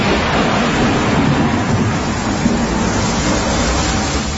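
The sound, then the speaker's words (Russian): A thunderstorm rages outside the windows of a semi-basement: a steady, loud, dense roar of rain and storm noise with a low rumble underneath. It runs without clear breaks or separate thunderclaps, and no voices are heard. “Гроза гремела, блистала и бурлила за окнами полуподвала.”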